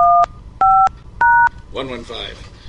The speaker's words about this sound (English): Thank you for calling. Please dial an extension now.